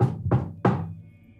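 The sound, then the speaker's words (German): Three knocks on a door come at an even pace, each a hollow thud with a short ringing decay. The third knock is the loudest and fades out slowly. “tritt neben dich und klopft an die Tür”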